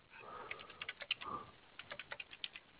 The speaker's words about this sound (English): Let me type that in real quick.